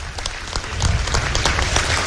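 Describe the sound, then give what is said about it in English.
Applause from the crowd for the GAA at a Galway camogie cup presentation: many hands clapping with sharp individual claps audible, growing fuller and louder partway through. “I'd ask you to give a round of applause, please, to the GAA for making it available to us today.”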